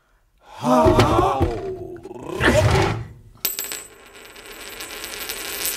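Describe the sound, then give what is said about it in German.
A Greek coin drops and rings out with a bright, sustained metallic tone that hangs for more than two seconds. Before it come two louder, rough bursts of sound. “Eine Münze.”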